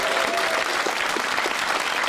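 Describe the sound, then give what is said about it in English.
Dense, steady applause from a game show audience welcoming a new contestant, a loud and even wash of many hands clapping, with no voices over it. “Round of applause for Kate. Let's welcome Kate.”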